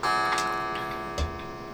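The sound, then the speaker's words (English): A clock ticking at eight o'clock, a few soft, quiet ticks spread over a short span. “And the clock is going off. It's 8 o'clock.”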